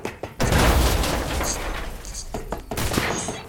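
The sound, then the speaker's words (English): A grenade blast and gunfire erupt in a multiplayer shooter video game on the roof of a fortress. A heavy boom opens into sustained rumbling noise with sharp cracks scattered through it, loud and dense. “throw, pull up grenade pin, throw it, and then run backwards. Okay. On the roof of the fortress.”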